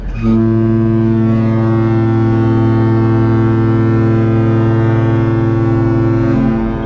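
A large cruise ship sounds its foghorn in one long, loud, deep blast. The rich tone holds steady for about six seconds before cutting off.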